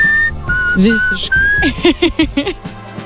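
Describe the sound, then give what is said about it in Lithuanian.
A person whistles a tune, holding a few long notes and then running through a quick series of short, bright notes. Loud and clear. “Nu palauk, kiek aš prisimenu švilpėjimų, tokių ikoniškiausių, tai šitas tikrai vienareikšmiškai yra ikoniškiausias.”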